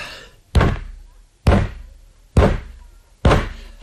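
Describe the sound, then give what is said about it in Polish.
A foot kicks a chair four times, each a heavy, dull thump with a short decay. The loud blows come at an even, steady pace with no other sound between them. “4 razy kopnął pan nogą w krzesło.”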